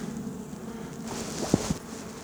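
Honeybees crowd a heavily populated hive frame from a nucleus colony, giving off a faint, low, steady buzzing hum with a couple of brief sharper ticks near the end.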